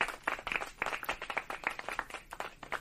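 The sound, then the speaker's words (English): Audience applause, with many quick overlapping claps forming a steady, fairly faint patter that carries on without a break and with no talk over it. “Clap it up for Ayla.”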